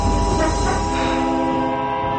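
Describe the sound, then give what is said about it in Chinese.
Rumble of a passenger train slowly beginning to move: a steady, dense low mechanical roar with faint sustained tones running through it. No voices are heard. “列车缓缓地启动了”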